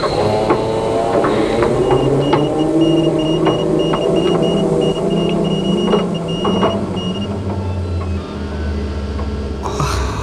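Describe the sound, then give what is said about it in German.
A diving vehicle's motor starts up and keeps running with a steady low mechanical drone, whirring tones and scattered clicks. The low rumble shifts partway through. “Ich starte den Motor.”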